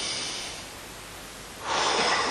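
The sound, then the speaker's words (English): A deep breath drawn in and blown out, heard as a soft, breathy rush of air that swells noticeably louder toward the end, with no talking. “So if you'd be kind enough to just take a deep breath.”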